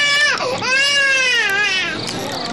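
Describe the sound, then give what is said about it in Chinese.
A baby cries loudly in a sustained, high-pitched wail that breaks briefly near the start, then carries on with a wavering tone that eases slightly toward the end. “不哭啊不哭不哭啊，乖乖，”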